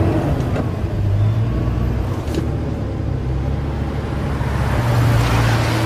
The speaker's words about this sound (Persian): جلال ماشین رو راه میندازه